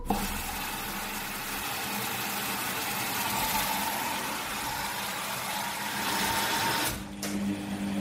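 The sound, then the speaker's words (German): A fully automatic washing machine runs through its wash and spin cycle, from soaking and main wash through rinses to the final spin, giving off a steady whirring mechanical hum over a low drone that dips briefly near the end. “Vom Einweichen über den Hauptwaschgang bis hin zu mehreren Spülgängen und dem finalen Schleudern. Keine Frage. Der Waschvollautomat war eine technische Meisterleistung.”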